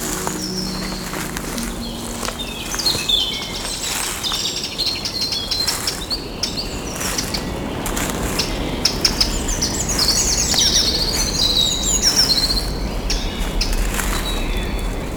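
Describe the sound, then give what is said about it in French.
Forest ambience full of birds chirping and singing, with a steady insect hum underneath, lasting throughout at an even level. “Les sons de la forêt vous saluent.”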